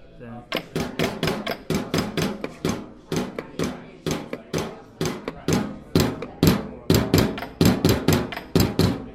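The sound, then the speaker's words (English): Solenoids, small spring-driven mechanisms, tap on a biscuit tin, a wooden box and a tabletop, making a quick, steady run of many knocks and clicks whose tone shifts between metallic and woody thuds. “And that noise is made by a little mechanical spring mechanism that jumped on a biscuit tin, on a wooden box, and on the tabletop.”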